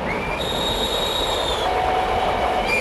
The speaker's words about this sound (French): Ce train, il est quand même pas possible.